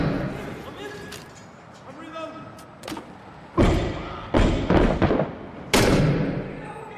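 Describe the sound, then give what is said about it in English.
Mortar shells strike a building in the video game Six Days in Fallujah, landing as several heavy, booming thuds in quick succession after a quieter start, each impact sharp and loud. “He's mortaring this building.”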